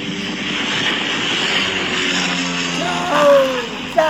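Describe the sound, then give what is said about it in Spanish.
Steady droning engine of a small hobby airplane in flight, a continuous broad whir with a low harmonic hum that swells briefly near the end. “Mira, escuchá el avión de Víctor.”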